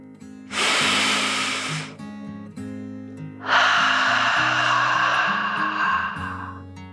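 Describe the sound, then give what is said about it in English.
A deep breath in and out, drawn slowly as part of a children's relaxation story: two long, airy breaths, the second longer and fuller, over soft, gentle background music. “Feeling even more relaxed, Dragon took another deep dragon breath in and out.”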